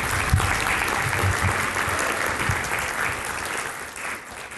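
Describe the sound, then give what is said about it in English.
Audience applause after a talk, a dense steady patter of many hands clapping at even loudness for several seconds, easing slightly toward the end with no speech over it. “you give her a clap.”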